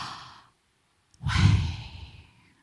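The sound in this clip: A person breathes audibly. A faint breath fades out, then after a short pause comes a loud, deep breath that swells and slowly trails off, like a sigh. No one talks.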